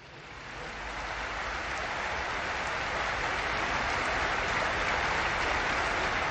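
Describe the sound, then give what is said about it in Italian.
Steady crowd applause at the Pope's call to honour Afra Martinelli, a 78-year-old missionary killed in Nigeria, swelling briefly at the start, then holding a dense, even wash of clapping alone. “Ma pensiamo a questa sorella nostra e la salutiamo con un applauso”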